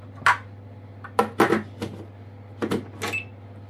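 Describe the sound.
A lid is set back onto a kitchen mixer bowl after eggs go in, giving a few sharp plastic clicks and clatters over a steady low motor hum.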